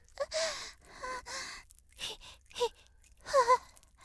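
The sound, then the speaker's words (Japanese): Lamaze-style breathing exercise, drawing air in through the nose and puffing out in a hee-hee-hoo pattern: a series of breathy, partly voiced exhales and sighs with short gaps, heard alone, ending in two quick bursts close together. “鼻から吸って、ひひふう、”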